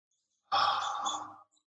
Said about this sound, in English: And we're going to do three more breaths. Inhale. Exhale nice and slow.